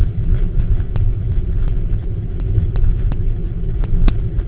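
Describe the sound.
Low, steady rumble inside a moving car on a long trip, a dense, continuous drone with faint, scattered ticks over it and no speech.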